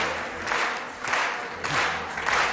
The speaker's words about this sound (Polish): publiczność na stojąco oklaskuje pana Andrzeja